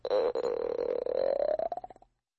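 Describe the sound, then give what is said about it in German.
A hungry boy's stomach growling: one drawn-out gurgling rumble lasting about two seconds. It rises slowly in pitch, then breaks into quick fluttering pulses before stopping. No one speaks. “So, ich höre ja bis hier, wie dir der Magen knurrt.”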